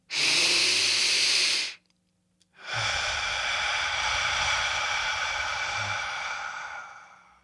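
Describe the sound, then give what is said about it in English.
A deep breath drawn in through the nose, then a slow, easy exhale: a loud, airy rush of about two seconds, a short silence, and a longer, softer breathy release that fades gradually over roughly five seconds. No voices. “Inhale for 2 seconds, deep through your nose. Exhale nice and easy for 4 seconds.”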